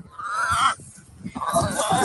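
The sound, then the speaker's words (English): Backyard chickens cluck and squawk in two busy bursts separated by a brief quieter gap, moderately loud against a rough outdoor background. “Hello, chickens.”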